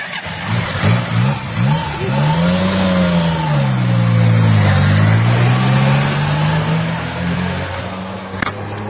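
A motorcycle engine revs hard, first in a few quick bursts and then in one long sweeping rev whose pitch climbs and falls again, loud and steady throughout.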